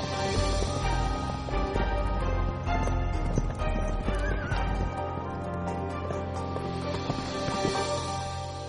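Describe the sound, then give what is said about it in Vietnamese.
Horses gallop and neigh as a troop of mounted soldiers leaves the capital: steady, dense hoofbeats run through the whole clip, with whinnies rising over them and a busy, full-bodied rumble underneath. “một tớp lính cưỡi ngựa rời khỏi kinh thành, nhằm hướng Khâu Phạ đi một mạch không ngừng nghỉ.”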